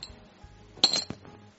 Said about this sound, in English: Best two out of three on the dice roll.